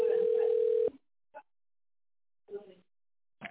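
A telephone ringback tone sounds during a call transfer as a single steady, mid-pitched tone lasting under a second. After it stops, a few brief faint clicks and line noises follow.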